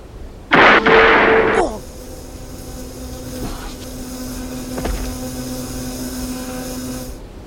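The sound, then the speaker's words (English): A gunshot special effect: one loud, harsh burst lasting about a second, followed by a quieter, steady low hum with faint clicks. “you got a gun on you? I do. Okay. For this demonstration, try and shoot me.”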